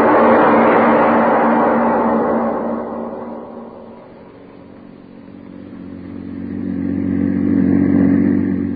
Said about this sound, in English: The publisher and his chauffeur are driving along a country road.